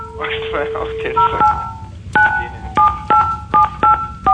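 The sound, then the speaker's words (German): Telephone keypad tones as a number is dialed: a string of short, evenly pitched beeps with brief gaps between them. A voice talks briefly before the dialing starts. “Der ruft schon wieder einen Herrn Bensko an.”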